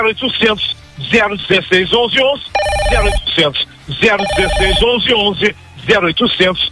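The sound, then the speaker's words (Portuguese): A telephone rings as a call is placed: two short bursts of bright, trilling electronic ring break between stretches of lively, fast talk. “Eu ligo, já estou ligando.”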